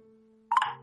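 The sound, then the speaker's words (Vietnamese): A mobile phone keypad tone while texting: a single short electronic beep over a faint, steady low hum. “Phải gửi tin nhắn qua điện thoại.”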